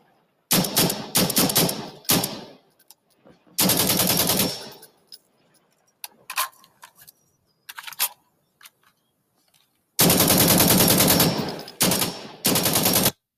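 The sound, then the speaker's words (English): AK-47 assault rifle gunfire comes in loud, rapid automatic bursts of rattling shots, separated by pauses with a few scattered single cracks in between. “Load up the AK-47. Load it up.”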